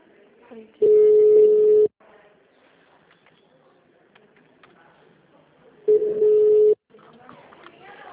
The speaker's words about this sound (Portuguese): Estamos transferindo sua ligação para um de nossos atendentes.